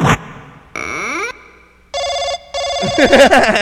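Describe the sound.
A telephone rings with an incoming call, heard as a few loud bursts of bright electronic ringing tones with short gaps between them; the last burst runs into busier, cluttered noise.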